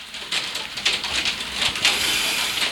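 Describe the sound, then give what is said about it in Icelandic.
Hail falls outside in a dense, steady patter of tiny hard impacts, swelling into a few louder bursts, with no voices. “ég veit ekki hvort að ég hafi verið að ergi eitthvað guð en það er farið að regna haglíli fyrir utan”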